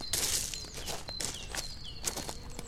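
Footsteps walk at an even pace, a few soft thuds and scuffs spaced through the moment, faint, with thin high bird chirps sounding now and then.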